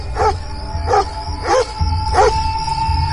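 A stray dog barks four times in evenly spaced bursts, each short and mid-pitched, over a low steady background hum.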